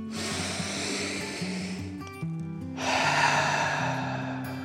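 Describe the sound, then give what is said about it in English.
A slow, deep breath drawn in, a brief pause, then a long, airy breath out, soft and unhurried over gentle sustained background music. “With a deep breath in and out,”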